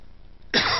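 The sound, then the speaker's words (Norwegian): A single sharp, harsh cough from a person with a cold bursts out suddenly after near silence and rings on until the end. “Beklager at jeg hoster litt. Jeg er litt forkjølet.”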